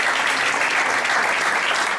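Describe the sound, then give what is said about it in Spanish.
Audience applause at a public celebration in Leganés: a dense, even wash of many hands clapping that stays loud and steady throughout, with no pauses or cheering standing out. “Un aplauso para una institución de los españoles.”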